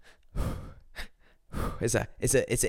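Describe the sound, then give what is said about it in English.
A person breathes in through the nose and out through the mouth while preparing for a run, giving a few soft, airy breaths with short pauses between them. “it's an in and out, and it would be through the nose and then out the mouth.”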